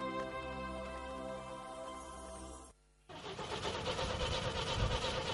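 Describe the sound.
A car engine cranks without catching, a steady droning whir that cuts out for a brief moment before a rougher, noisier churning resumes and carries on to the end.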